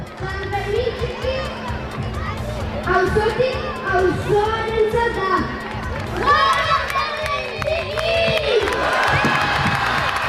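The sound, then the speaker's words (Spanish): Festival crowd in Pamplona's old town during San Fermín Chiquito, a lively mass of voices with children shouting and calling over continuous busy chatter and a low steady hum. “si no, que se lo digan a los ciudadanos del casco viejo de Pamplona, que hoy ponen el broche a las fiestas del verano, aunque hayamos entrado ya en el otoño, con San Fermín Chiquito.”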